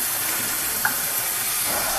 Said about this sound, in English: But this measuring cup actually needed a rinsing out first from whatever was in it last.